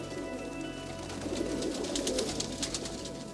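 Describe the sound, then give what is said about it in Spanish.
Pigeons cooing steadily on ground strewn with crumbs, where a flock pecks at the scraps. The soft, continuous coos layer over a steady, hissy background with no talk. “El suelo está repleto de palomas que picotean con avidez.”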